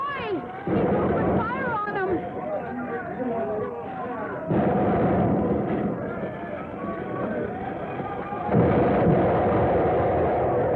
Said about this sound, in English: He opened fire on them! Now there was a hit! Right on the lead junk!